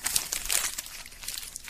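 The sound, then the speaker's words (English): Papers being crumpled up, a short burst of faint, irregular crinkling and crackling that is busiest early and thins out toward the end. “That's the sound of me crumbling up the papers.”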